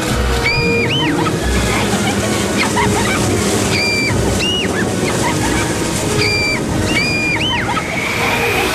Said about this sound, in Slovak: Pred nami je rieka!